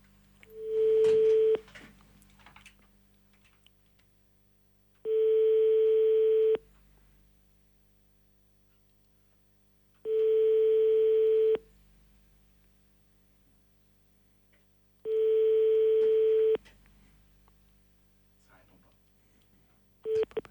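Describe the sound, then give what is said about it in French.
Telephone ringback tone heard while calling a number back, before the call reaches a mobile voicemail: four long, steady mid-pitched beeps separated by even, longer pauses, over a faint low hum. “Écoutez, je pense qu'on va rappeler l'antre. Oui. Hein, on va essayer de les rappeler.”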